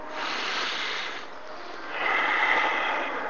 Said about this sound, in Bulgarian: Поеми дълбоко дъх и изпусни. И пак.